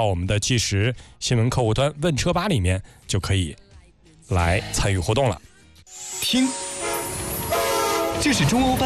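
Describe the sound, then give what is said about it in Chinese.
A China-Europe freight train departing, its broad rumbling rail noise with sustained horn tones coming in during the last few seconds after an earlier stretch of voices. “听，这是中欧班列出发的声音，河北制造正沿着“一带一路”送到全世界的货架上。”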